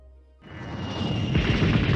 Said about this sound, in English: Here's a short clip from the English-dubbed version of Nausicaa of the Valley of the Wind during an air convoy attack.